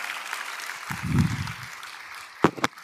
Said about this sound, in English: Can we just give the Lord a round of applause?